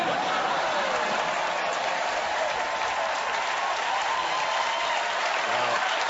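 Sustained applause from an audience, a steady, even wash of many hands clapping that keeps the same level from start to finish.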